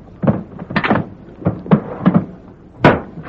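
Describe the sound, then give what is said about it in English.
Wooden knocks and clunks as a box lid is shut after short rifles are put back inside: a series of sharp thumps of varying loudness, spaced unevenly, with no voices. “Then he put the rest back in the box and closed the lid.”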